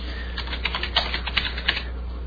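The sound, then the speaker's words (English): Someone types a name on a computer keyboard, producing a short, quick run of light keystrokes at an uneven rhythm, faint and with no talk. “I'm going to type in my friend's name.”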